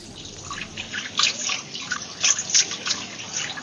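Running water splashes as a car mechanic in Accra, Ghana, scrubs motor oil off his hands, a faint, uneven trickle and spatter with no talk.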